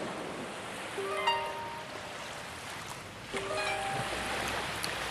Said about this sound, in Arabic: أنا قاعدة في البحر شمال تل أبيب لحالي